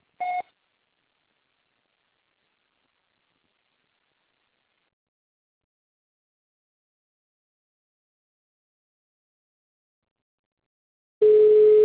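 Answering machine tones on a phone line: a short beep at the start, a long stretch of silence, then a steadier, lower tone at the end.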